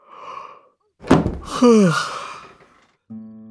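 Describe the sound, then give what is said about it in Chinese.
A heavy palace door is pushed open, giving a dull thump followed by a drawn-out creak that slides downward in pitch. A soft rustle comes before it, and a short sustained tone begins near the end. “帝进言打着哈欠推开华宇殿的门，一步还没迈进，腿便生生僵在了半空。”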